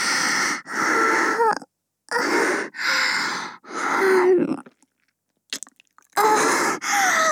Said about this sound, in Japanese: ごめんなさい、お耳おいしいからいっぱい噛んじゃいました。